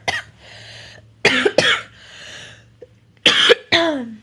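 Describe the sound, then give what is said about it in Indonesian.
A coughing fit of several harsh, loud coughs in a few bursts, separated by quieter raspy breaths over a steady low hum. “Batuknya dahsyat anjir, maaf.”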